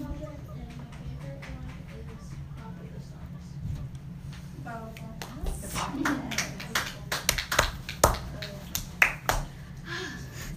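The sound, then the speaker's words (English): A few people clap sparsely, with scattered sharp claps that become more frequent in the second half while people talk throughout. “Is clapping such a chore?”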